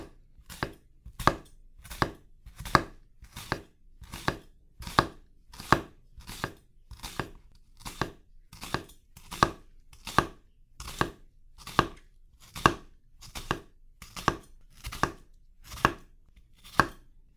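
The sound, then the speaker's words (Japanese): A knife cuts vertical slits into a layered vegetable with its root left on for mincing, giving many crisp strikes at an even, steady rhythm, heard alone. “根っこはすべての層をまとめているところだから、みじん切りにするときは残しておくのよ。縦に切れ目を入れて、”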